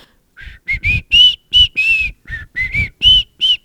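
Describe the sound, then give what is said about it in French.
Whistling of a song's opening melody: a clear, bright run of many short whistled notes in a lively rhythm, alone with no talk. “comme il y a une chanson qui commence avec du sifflement, c'est comment”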